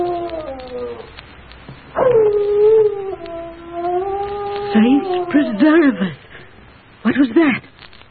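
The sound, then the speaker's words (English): A dog howls in long, wavering cries that rise and slide downward, then breaks into shorter yelping whimpers and yips, loud and alone. “Oh, it's Peck's dog howling. That's a bad omen.”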